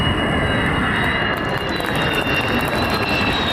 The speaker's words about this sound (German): Februar 24, Jungfernflug des Tankkappenjägers Khan, made in Türkei. Nur das Triebwerk muss aus den USA zugekauft werden, noch.